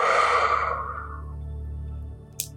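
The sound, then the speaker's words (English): A slow, deep breath out during a relaxation exercise for falling asleep, a soft airy rush that fades away, leaving only a low, gentle musical hum underneath. “Breathe in and out. Let's do one more together. Breathe in and out.”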